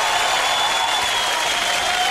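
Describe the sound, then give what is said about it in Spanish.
An audience at a classic-hits disco show gives a steady ovation of dense applause. The even, hissing wash of many hands clapping holds at a constant level for the whole clip, with no breaks or spoken words. “Y para el comienzo tenemos a una dama que la vamos a recibir como ella realmente se lo merece, con una tremenda ovación.”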